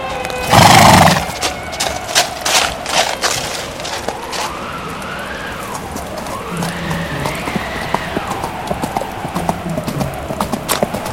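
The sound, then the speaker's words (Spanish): Horses' hooves clip-clop at an even pace. A loud whinny bursts out near the start, and later long rising-and-falling neighs sound over the hoofbeats. “Estamos llegando. Amarraré los caballos.”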